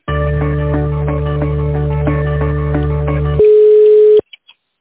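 Electronic telephone line tones play while a call is transferred. A steady, loud pattern of repeating beeps lasts about three seconds, then shifts into one sustained tone that stops suddenly, followed by a few faint clicks.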